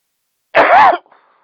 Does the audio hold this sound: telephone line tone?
no